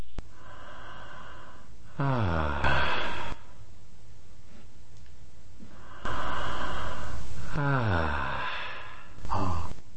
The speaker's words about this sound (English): I will emphasize the two parts of the exhale and inhale with the pause between.